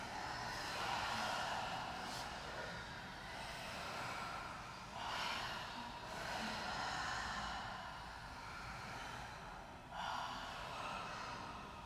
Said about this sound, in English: Two more of the strongest, most intentional breaths.